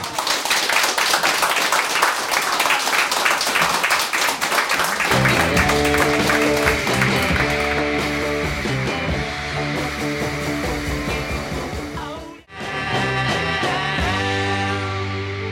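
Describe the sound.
Loud American audience noise, dense cheering and clapping, fills a live pop recording. It is alone at first, then continues under band music with a steady beat, dipping briefly near the end.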